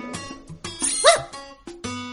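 A dog barks several times in short bursts, with one higher yip in the middle and no talk over it.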